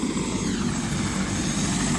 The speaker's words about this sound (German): Der Hubschrauber kreist über der Sächsischen Schweiz und verschwindet immer wieder zwischen den Felsen.